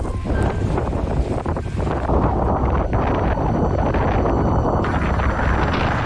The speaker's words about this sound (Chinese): 随着一阵狂风袭来，原本寂静的沙海忽然躁动起来。